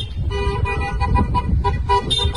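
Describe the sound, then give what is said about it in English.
Car horns beep repeatedly as a convoy of cars drives past for a child's birthday, with several overlapping toots of differing pitch over a low rumble of engines. “That drive past and give you a beep and a wave.”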